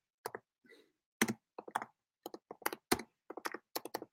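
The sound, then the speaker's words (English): Quiet typing on a computer keyboard: many light, irregular keystroke clicks come in short clusters with brief pauses between them, with no talking. “Here we go. I'm going to type it in right here.”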